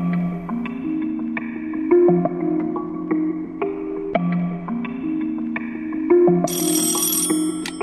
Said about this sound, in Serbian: Zazvonio telefon. Nepoznati broj.